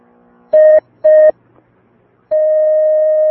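Telephone tones as a caller is connected during a phone-in question session: two short, loud beeps, then a pause, then one long steady tone, with no talk.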